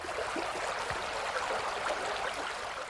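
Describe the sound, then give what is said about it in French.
Water of a stream flowing through the village of Pont-Aven, a steady, continuous rushing and trickling that stays even throughout. “Vous entendez la douce musique de l'eau C'est veine qui traverse le village de Pont-Aven. Il a un chant qui m'hypnotise et me berce.”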